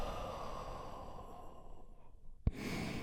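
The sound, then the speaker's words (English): A deep breath drawn and released as a soft, faint sigh during a group calming exercise, a long airy exhale followed by a sharp click near the end. “We do that by taking a big, deep, healing breath all together. Here we go. And release.”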